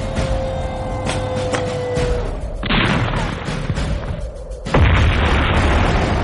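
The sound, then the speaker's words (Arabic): A cannon shot blowing up a Verna car during an ambush on a convoy of vehicles: loud, heavy booms over a continuous roaring rumble, with a sharp burst near the end. “وادي الفيرنا بطلقة مدفع واحدة.”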